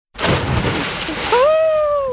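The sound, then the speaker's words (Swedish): Water splashes as a person plunges into cold sea water to bathe in Malmö, a loud, broad rushing splash followed by a rising, high-pitched vocal squeal. “äntligen plumsa i vattnet i Malmö”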